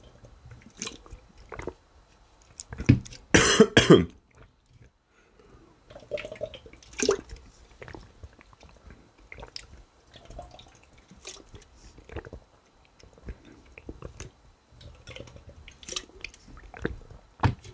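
Someone drinking a half-litre energy drink: scattered wet gulps, swallows and small liquid clicks, with one louder cluster near the start and quieter sips spread irregularly afterward.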